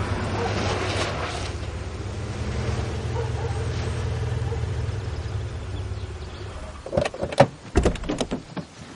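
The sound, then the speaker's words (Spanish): Car doors clunk as people climb out of a car stopped in front of a house, a low engine hum giving way to a few sharp, irregular door knocks and thuds near the end. “Frankie, Maggie, su madre y su hermana bajan del coche”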